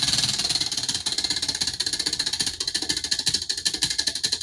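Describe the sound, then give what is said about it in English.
A prize wheel spins with a rapid, regular rattle of clicking ticks that keeps a fast, even rhythm all the way through, with no voices. “Shall I give this wheel a spin?”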